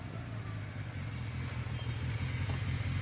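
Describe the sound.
A vehicle arriving outside makes a faint, low engine hum that stays steady and constant throughout, with no voices.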